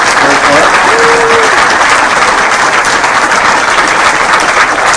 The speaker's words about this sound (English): And let's give them a big round of applause.